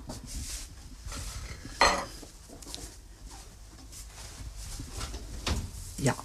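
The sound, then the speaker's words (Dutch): Oven door opened and a metal baking tray lifted out with oven gloves in a home kitchen: soft clattering and rustling, with a sharper metallic clank midway and another near the end. “De oven open, de handschoenen aan. En nu kom ik met de bakplaat.”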